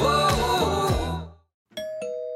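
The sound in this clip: A doorbell chimes a ding-dong: two bright, sustained bell tones struck in quick succession and left ringing, arriving after a brief silence.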